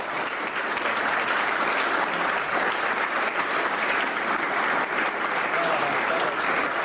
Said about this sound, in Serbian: Još jedan, evo, molim sve vas za jedan aplauz.